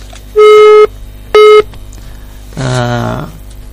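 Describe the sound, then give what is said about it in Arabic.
Telephone tones mark an incoming call on a radio phone-in: two loud, steady electronic beeps of equal pitch, then a shorter buzzing tone. “لكن هناك مكالمة جديدة مرحبا”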